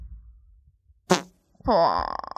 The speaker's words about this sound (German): Warte ganz kurz, Digga, ich muss furzen.